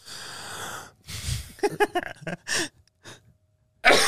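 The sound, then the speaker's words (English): A voice imitates a cough that begins with a sharp, breathy inhale, followed by a run of short, choppy voiced bursts and a few brief breathy puffs. “she breathes in every time she's about to cough. And so instead of just going, she goes,”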